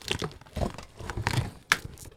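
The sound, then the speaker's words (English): Tape ripped off the side of a package as it is opened, producing a few quiet crinkly tearing bursts with a sharper, louder rip near the end. “Here, yeah, get the tape off. It's taped at the side. Okay. Do the tape on the side. Okay, now open it.”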